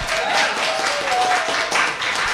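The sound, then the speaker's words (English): Audience applause at a gathering in Moreno Valley, a crowd clapping in a dense, fluctuating patter that swells and dips in loudness, with a faint steady tone underneath. “By show of applause, how many of you think that would be a good interview, an interesting interview?”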